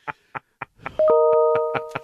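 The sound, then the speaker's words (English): A notification alert sounds as a layered electronic chime of several steady tones that starts abruptly and holds to the end. A few short tonal blips come before it. “Somebody just got a notification. What was that?”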